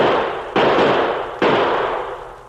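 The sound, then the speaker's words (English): Two loud gunshots ring out as two guns fire at a tin can tossed into the air. Each is a sharp crack with a long, slowly fading tail, the second coming close to a second after the first. “I'll use my own two guns. You use yours. Matt! Yeah? Throw one of them tin cans up in the air. I'll keep it there.”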